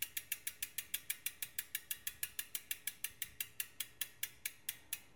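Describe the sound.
A cargo bike's wheel ratchet clicks as the bike is moved: a long, even stream of many crisp, faint mechanical ticks, about five per second, steady and alone.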